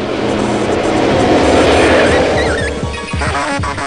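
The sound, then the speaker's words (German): A car engine roars loudly and steadily, with rough low rumbling that eases slightly near the end; no clear horn blast stands out. “Das Auto hupte immer noch, wütend. Es drehte absichtlich auf mich zu. Es wollte mich überfahren, wie Elian.”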